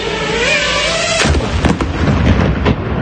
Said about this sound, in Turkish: Saniyeler sonra gerçekleşen şiddetli patlamayla sivil adam doğrudan hedef alınıyor.